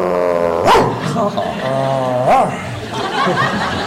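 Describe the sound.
A human voice imitates a dog barking with two prominent high, yelping barks, mimicking how a dog sounds in Mandarin and in Cantonese, amid continuous talk.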